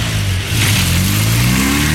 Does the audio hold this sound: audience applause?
no